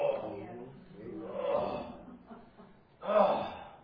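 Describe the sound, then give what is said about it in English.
A person groans in prayer, voicing several low, drawn-out moans that swell and fade. The last groan is the strongest, and no clear words are spoken. “All I can do is groan.”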